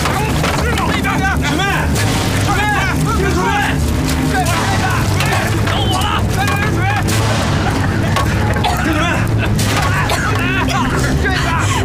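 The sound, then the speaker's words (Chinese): A storage depot explodes in a continuous roar of heavy rumbling and repeated booms that fill the whole clip. Voices shout over the loud din. “你快看看，那个雪妹把铁箱库给炸了！”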